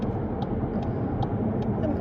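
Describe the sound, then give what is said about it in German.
Steady engine and road roar from a car overtaking trucks on a road, a continuous low rumble that stays even throughout with no distinct separate events. “Gott, wir überholen hier LKWs, liebe Leute im Radio.”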